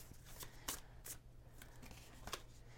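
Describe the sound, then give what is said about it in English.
Oracle cards drawn from a deck during a divination reading make a few crisp, papery flicks and slaps, spaced irregularly over a steady low hum. “We have 3 more cards to draw.”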